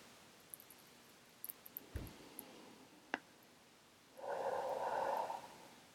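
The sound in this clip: One slow, deep breath taken during meditation, heard as a soft airy rush about a second long. A few faint clicks and taps come before it against a quiet background.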